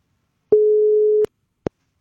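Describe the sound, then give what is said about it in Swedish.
An outgoing telephone call waits to connect, calling a contest finalist: one steady ringback tone holds for under a second and cuts off, then silence broken by a single short click. “vi använder oss av telefon. Och så hoppas vi att samtalet kopplar upp och att det är någon som svarar.”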